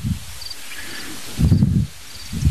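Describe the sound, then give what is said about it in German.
Wind buffets outdoors beside a hedge in a few low, rumbling gusts, with steadier rustling between them and faint high chirps over the top. “ihr müsst leider etwas Windgeräusche ertragen.”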